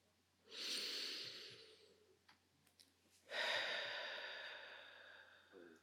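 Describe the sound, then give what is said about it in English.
Slow, deep breathing through the nose, one long inhale followed by a longer exhale, soft and airy with no talk. “Let's do about 2 to 3 more deep breaths in through the nose and out through the nose.”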